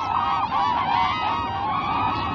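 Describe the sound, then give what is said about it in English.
Cranes calling in Bhutan: a dense, continuous chorus of loud, honking, trumpet-like cries that overlap without pause. “Wherever they are found, cranes have always been a symbol of longevity. The Bhutanese revere these elegant birds.”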